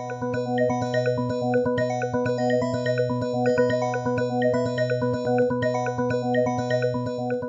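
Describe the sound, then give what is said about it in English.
Music evolved by natural selection from a harsher starting sound on the DarwinTunes website: a steady low drone of sustained tones under many quick, bright, bell-like plinking notes in a repeating pattern, with no voices. “That music actually evolved from a much less mellifluous starting sound using the same principles of natural selection that control how species change.”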